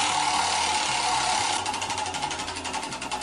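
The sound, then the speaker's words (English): A spinning prize wheel clicks in a rapid, steady run of ticks over a constant noisy wash. Partway through, the clicking becomes distinctly pulsed and rhythmic. “Let's get this wheel going.”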